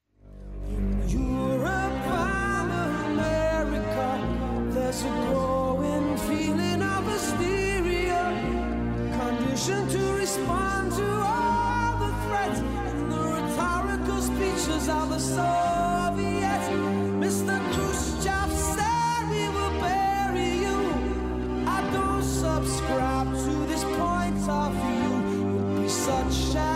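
A 1985 pop song about Cold War tension between the USA and Russia plays continuously at an even level, with a layered, orchestral-sounding arrangement and no pauses.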